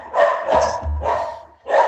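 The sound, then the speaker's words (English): Dogs barking, a few loud, mid-pitched barks in quick succession with short gaps between them, heard on their own. “As the dogs have decided to weigh in on this, hey, hey, it's not a Texas Ranger baseball podcast unless Jeff's dogs let us know that they're there.”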